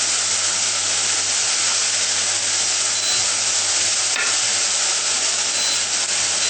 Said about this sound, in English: This is high heat, okay? So you have to stir it constantly. Otherwise it might burn.